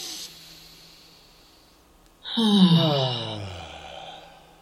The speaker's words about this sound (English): So it's going to be inhaling through the nose and exhaling through the mouth on ah. Together, inhale.